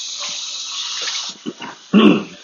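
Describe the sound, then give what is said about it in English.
Running water at a sink as hands are washed after cutting up raw short ribs. A steady tap stream flows, then cuts off, followed by a few brief splashes and a louder final splash. “I'm going to go ahead and just wash my hands real quick.”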